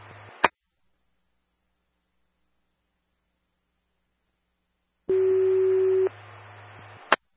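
Fire dispatch alert tone over the radio for an engine call. One steady mid-pitched tone lasts about a second amid radio hiss, with short hiss bursts and sharp clicks at the start and end.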